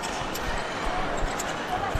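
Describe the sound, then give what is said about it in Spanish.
A basketball bouncing on the court floor during a professional game involving Río Breogán, a few dull low thuds beneath steady crowd noise and a talking voice. “Ahí está poniendo la pelota el Río Breogán en el suelo con Mabra y la falta de Audis.”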